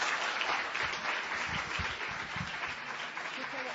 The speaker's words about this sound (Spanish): Vamos a darle un aplauso, una bienvenida española, porfa.